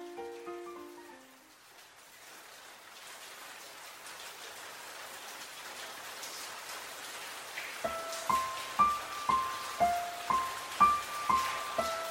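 Rain falls as a steady, even hiss that holds throughout. Partway through, a regular series of plucked musical notes joins the rain.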